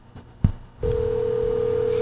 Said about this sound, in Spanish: Coño, no me va a contestar el teléfono.